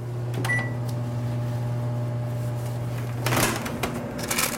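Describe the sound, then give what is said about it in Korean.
Steady low hum of a running oven while soup is being made, with a short high tone early on; the hum cuts off partway through amid a burst of clattering kitchen noise. “제가 이 스프를 만들 동안 벌써 저 오븐이, 잠깐만요,”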